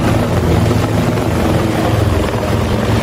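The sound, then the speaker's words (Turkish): Steady, loud rotor drone of a rescue helicopter sent to lift a horse out of a pond, a continuous low thrumming throughout with no voices. “Bölgeye kurtarma helikopteri sevk edildi.”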